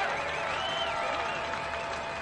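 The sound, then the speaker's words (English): Fans and players in a baseball dugout cheer after a long at-bat ends in a walk, a sustained crowd roar with whistles and shouts held at a steady level throughout. “Cheering from Daytona's dugout. Fans erupt.”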